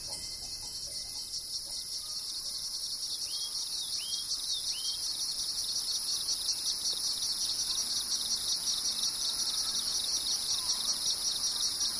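Insects along a trail drone in a continuous, shrill, high-pitched chorus that stays steady and unbroken.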